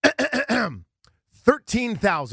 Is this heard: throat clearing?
yes